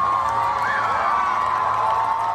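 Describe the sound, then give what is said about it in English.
Crowd cheering for defending champion Evans Chebet as he wins the Boston Marathon, a dense, loud, continuous roar of voices and whoops that holds steady throughout. “Cheers for defending champion Evans Chebet, who won the Boston Marathon again today.”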